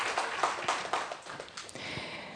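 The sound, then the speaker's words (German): A small, faint round of applause from an audience at a Sunday church service, scattered irregular claps that thin out toward the end. “Okay, das ist schon mal ein kleiner Applaus.”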